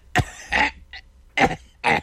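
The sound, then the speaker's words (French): A longtime smoker of forty years coughs in a few harsh, separate bursts with short pauses between them. The coughs come alone, with no talk. “Ça fait 40 ans que je fume. Puis je m'étouffe, je tousse.”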